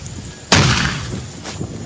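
A single loud artillery blast from a gun firing on enemy positions during an assault, a sharp heavy boom followed by a long rumbling decay.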